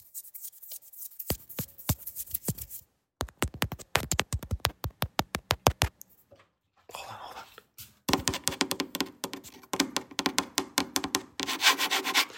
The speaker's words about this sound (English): That shit right there. It's called ASMR.